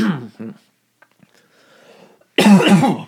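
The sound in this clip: Two short, throaty coughs from a tickle in the throat come in quick succession, then a pause, and a voice begins speaking.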